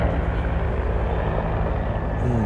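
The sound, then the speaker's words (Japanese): A helicopter flying low overhead gives a steady, heavy droning rumble with a thick low-frequency throb that holds even throughout, with no voices. “すごいなんか低くヘリコプターが飛んでる”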